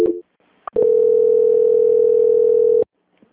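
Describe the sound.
A telephone tone plays during a call transfer: a loud, steady, buzzy single tone holds for about two seconds, preceded by a brief click and a short blip, with near silence on either side.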